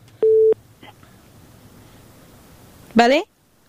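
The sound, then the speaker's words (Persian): Single short, steady mid-pitched telephone busy-tone beep after a phone call was cut off, followed by low background hiss and a brief harmonic sound near the end. “بله تماسشان قطع شد، تماس بعدی رو میگیریم.”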